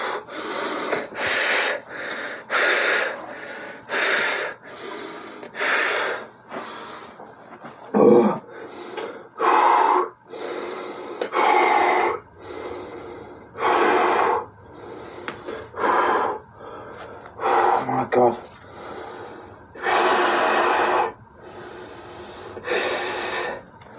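Heavy, panicked breathing during a panic attack: many rapid, loud, rasping breaths in an even rhythm, each a short burst of breathy noise separated by brief pauses, with no talking.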